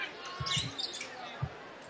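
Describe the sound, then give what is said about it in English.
A basketball is dribbled on the court during a boys' high school game. A few low, hollow bounces thud at uneven intervals under a commentator's steady play-by-play talk. “And now he'll dribble away from the basket.”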